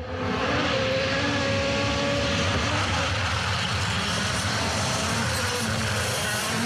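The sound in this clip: Rally car engine roaring through a corner at the Acropolis Rally, a continuous broad, droning roar held at an even level from start to finish.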